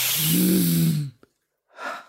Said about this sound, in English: I said, let me hear you breathe it in deep through those nostrils.